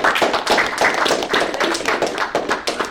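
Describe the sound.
An audience applauds to welcome a speaker at a college entrepreneurship event, with steady, dense clapping throughout.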